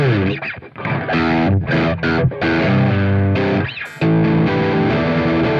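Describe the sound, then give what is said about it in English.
An electric guitar plays through an effects pedal with its deep switch engaged, giving a thick, heavily distorted tone. A few sustained chords and notes ring with short breaks between them. “Yeah, I think deep is on when it's pushed down. Okay. Toward the bottom of the pedal. That's what it sounds like to me. Yeah, that sounds a lot thicker,”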